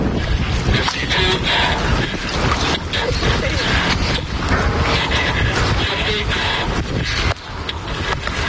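A working replica of an early hand-operated submarine is driven through the Mystic River in Connecticut, giving steady churning water and wind-like rushing noise with a dense, rough texture throughout and a brief dip near the end.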